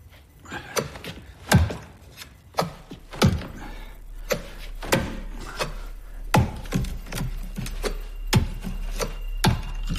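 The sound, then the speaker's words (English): Sharp wooden thunks as a knife is stabbed again and again into a wooden door, many hard hits at an irregular pace with scraping between blows and no voices. “He takes it out and repeatedly stabs his knife into the door.”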